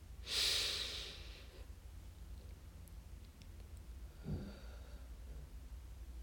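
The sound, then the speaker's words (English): A long, deep breath drawn in loud and airy, then a second, shorter and softer breath a few seconds later, with no talking. “but a really good breath. I'm gonna take another.”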